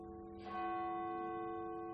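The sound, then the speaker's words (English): A church bell tolls once in a single strike, then rings on with a steady, sustained metallic tone that hums and slowly fades under faint background noise. “I think the bell is tolling”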